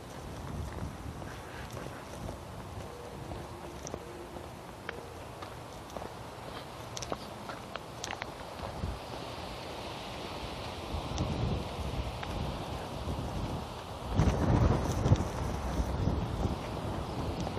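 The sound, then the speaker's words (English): A wind of about 10 knots buffets the microphone as a broad, gusty rush. It holds steady, then swells louder toward the end. “I said light breeze, but it's actually more like a 10 knot wind.”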